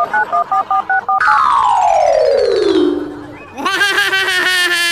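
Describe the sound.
Touch-tone telephone dialing as a call is placed to a police chief: a quick run of short keypad beeps, then a long falling electronic whistle and brighter synthetic tones.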